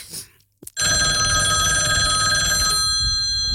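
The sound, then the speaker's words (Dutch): A telephone bell rings in one loud, steady continuous burst lasting about two seconds, starting after a couple of faint clicks and cutting off abruptly, leaving a low hum. “Ja, ineens telefoon.”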